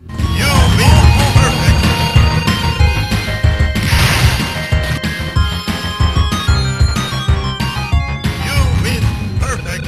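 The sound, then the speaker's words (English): Arcade audio from the old Street Fighter video game plays loud and continuous, a dense stream of music-like tones broken by sharp crash and thwack hits, with no talk over it. “That's from the old Street Fighter”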